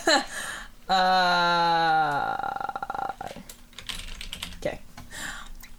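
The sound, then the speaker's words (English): Keys clatter on a computer keyboard in fast, irregular bursts of many clicks, preceded by a long, drawn-out voiced tone. “I'm just going to judge based on how long you type.”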